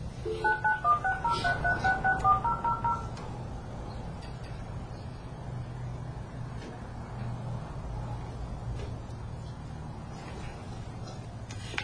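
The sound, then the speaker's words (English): Telephone keypad tones as a number is dialed to call a person into a hearing: a rapid run of short, clipped beeps for about three seconds, then a low steady line hum to the end. “Nothing else? You may proceed with dialing.”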